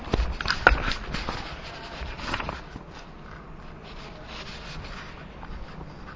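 Drawing on a board in a different colour: a few quick, scratchy strokes early on, then quieter, softer rubbing with no talk.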